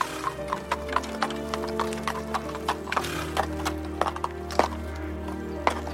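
Horses arrive along a street, their hooves clip-clopping in many sharp, irregular clops over a steady low background rumble.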